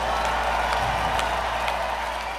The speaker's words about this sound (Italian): Yourselves a round of applause.